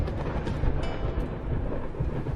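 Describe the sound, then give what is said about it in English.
Thunder rumbles during a storm, a continuous, heavy, low rumble with uneven swells in loudness and no clear breaks. “As soon as Oh recited Wen's poem, the weather turned stormy, as if the skies became disturbed upon hearing these 700-year-old lines.”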